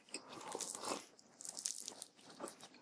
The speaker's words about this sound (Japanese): いただきます。 あ、ハンバーガー美味しいわ、これ。